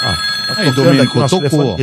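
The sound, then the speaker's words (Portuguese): A telephone rings as steady, high electronic tones running throughout, partly under loud talk. “Tocou o telefone. Deixa eu dar uma olhada.”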